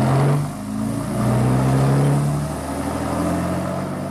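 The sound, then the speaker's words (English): A car engine runs with a low, steady hum, its revs swelling slightly as the car sets off with a driver at the wheel. “The fellow at the wheel didn't look round as we got in. He started the motor. Kurt, drive us to Concerta Square.”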